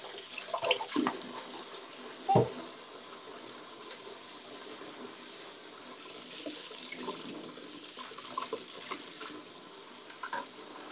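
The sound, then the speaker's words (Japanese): Water runs from a tap while dishes are washed up after cooking ramen. A steady hiss carries a few light clinks and knocks of crockery. “いらないものはさっさと洗ってます。”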